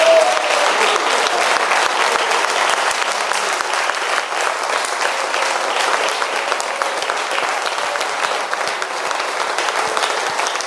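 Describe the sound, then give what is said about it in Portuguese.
Sustained applause at a religious worship gathering: dense, steady clapping that holds at an even loudness for the whole stretch without a break. “Vamos aplaudir a Jesus pela aquela vida.”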